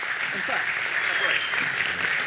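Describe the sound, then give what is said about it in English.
An audience gives a guest speaker a round of applause, a steady stream of clapping with a voice talking over it. “And I'd love you to give him a round of applause before we even start. Yeah, there we go.”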